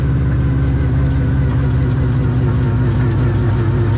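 Steady engine drone from a turbocharged car driving a short loop while still warming up and running sluggishly. A continuous, fairly loud, low rumble with a mild pulsing texture holds an even level throughout, with no voices.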